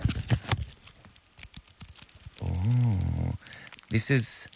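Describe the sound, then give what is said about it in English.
Packaging being unwrapped from a tuna tin: a run of small, quick crinkles and rustles, with a voice sounding in between. “I'm unwrapping the product. Listen closely.”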